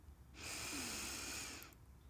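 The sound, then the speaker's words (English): A single slow breath drawn in through the nose during a paced breathing exercise: a steady, airy hiss that swells, holds for over a second, then fades, with no voices. “inhale for a count of four”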